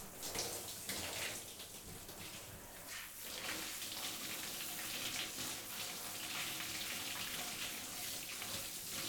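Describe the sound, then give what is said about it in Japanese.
Lukewarm water rinsing hair after a shampoo: a steady, hissing stream of running water with soft splashing that wavers slightly in strength throughout, no speech. “霊感シャンプーの後ってお湯が熱く感じやすいみたいだから、いつもより少しぬるめのお湯で流してるんです。”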